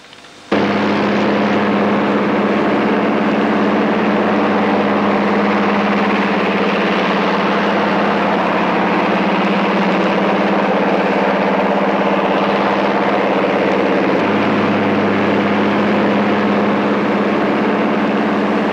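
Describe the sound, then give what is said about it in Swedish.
Engines of heavy Swedish air force bombers start up on an airfield: a loud, steady, droning roar with a deep low hum. It begins abruptly and runs without a break, and a low note shifts partway through. “här och överblickar fältet för att konstatera om de unga herrarna startar de tunga bombarna mönstergilt.”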